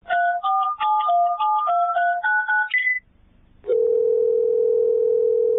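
A phone call connects a caller: a quick run of touch-tone dialing beeps, a short pause, then a loud, steady, unbroken line tone that holds to the end.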